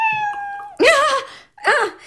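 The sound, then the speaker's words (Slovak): Two drawn-out, wavering cat yowls, loud and rising and falling in pitch, separated by a short gap and preceded by a steady held tone. “to čo je? Mačky.”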